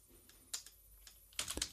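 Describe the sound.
Computer keyboard typing: a few quiet, scattered keystroke clicks, then a denser flurry of taps near the end, with no voices.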